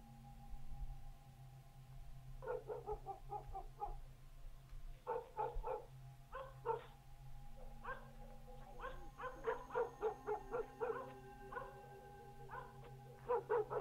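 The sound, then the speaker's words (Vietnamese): A yellow dog barks outside, a long series of many quick, sharp barks and yaps in clustered runs, fairly faint over a steady low hum. “Ở bên ngoài, tiếng con chó vàng lại cắn nhấm nha nhấm nhặng.”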